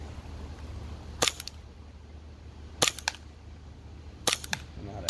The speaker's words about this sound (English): So this is their first pistol, and I think they did a good job with it. Let's go ahead and start shooting it a little bit. There's HPA on here.